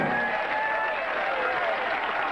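Crowd applause fills the scene as a man smiles and claps along, a dense, continuous patter of many hands holding a steady, moderate level.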